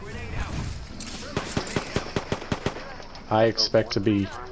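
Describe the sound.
Gunfire in a video game shootout: a quick run of many sharp, cracking shots at a steady pace, followed by a voice speaking.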